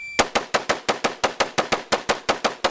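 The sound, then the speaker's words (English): An AR-15 rifle fired rapidly by a competition shooter: a fast, even string of sharp, loud shots, each a hard crack with a quick decay, one trigger pull after another with no pause. “This is now somebody firing the AR-15 very fast, pulling the trigger every time, a competition shooter showing you how to, between changing targets and aiming and firing very, very quickly.”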